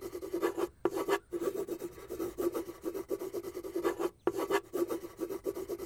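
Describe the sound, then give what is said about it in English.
A pen scratching across paper while someone draws a plan, making rhythmic, raspy strokes with a few brief pauses between bursts. The strokes are soft and there is no talk over them. “What is that you are drawing? I've never seen anything like it.”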